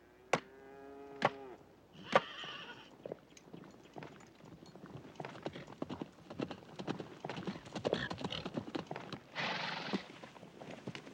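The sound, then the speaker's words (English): Horse hooves gallop up at a ranch, a dense clip-clop of hoofbeats that grows busier and louder, with a whinny near the start. “A horse gallops up, and she runs to the barn.”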